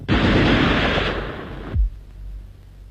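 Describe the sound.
Gunfire in a radio drama set during an anti-Japanese guerrilla war: a loud, harsh blast rings for well over a second and cuts off abruptly, followed by a single low, heavy thud.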